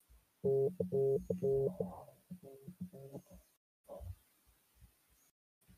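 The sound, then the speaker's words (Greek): A telephone rings with a quick run of bright, electronic tone bursts at the start, then quieter, scattered sounds with short pauses between them. “συγγνώμη γιατί χτυπάει και το τηλέφωνο.”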